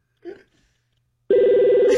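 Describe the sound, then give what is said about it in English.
A telephone rings with a loud, steady electronic warbling tone that starts abruptly after a quiet gap and holds to the end, preceded by a brief faint sound. “Oh, nice ring. What kind of phone is this?”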